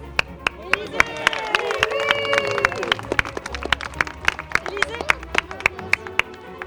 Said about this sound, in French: Bravo, on les applaudit de l'ensemble. Je peux dire bravo. Bravo à tous.